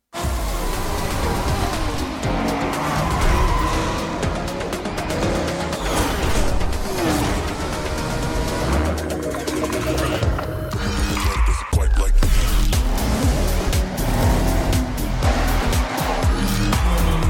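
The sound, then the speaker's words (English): Racing cars roar and skid with tire squeal in a Forza Horizon 6 video game teaser. The engine noise and skidding run loud and dense throughout, with bursts of squealing tires layered over a continuous mechanical roar. “we're about to get into Forza Horizon 6, the official gameplay teaser, right now.”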